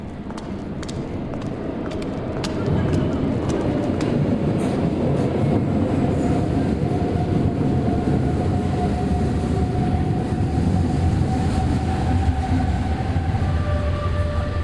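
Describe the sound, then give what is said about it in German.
A subway train arriving at an underground station: a steady, loud rumble that swells after the first few seconds, with thin high squealing tones and scattered clicks running through it. “Sie steigt in die ankommende Bahn.”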